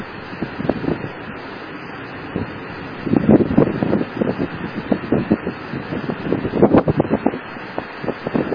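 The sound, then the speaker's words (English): Brisk wind buffets a handheld microphone outdoors beside a herd of horses with colts, a rough, rumbling roar of irregular gusts. The gusts grow louder and choppier from the middle onward, and no one speaks. “the wind is blowing briskly”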